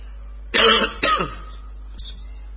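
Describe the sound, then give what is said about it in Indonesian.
Coughing and throat clearing during a lecture in a mosque: two sharp, loud bursts close together, then a fainter third a second later. “Baru setengah jam udah batuk-batuk.”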